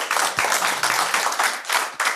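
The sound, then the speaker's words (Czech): Audience clapping in agreement with a call to support marriage for all. Dense, moderately loud applause runs the whole time, with many overlapping hand claps and a few slightly stronger bursts. “Pokud s tím souhlasíte, tak zatleskejte.”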